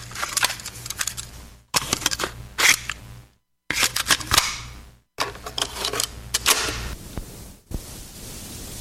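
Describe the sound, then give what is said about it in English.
A cassette tape is popped into a tape deck with a series of sharp plastic clicks and clatters, coming in several short bursts separated by brief silences. “Nothing like that sound. The tape popped in the deck. We're ready to roll.”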